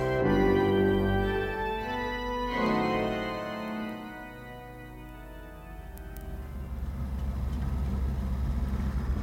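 Taxi driving home: a low, steady engine rumble that swells in the second half, following a brief tonal passage, with no talking.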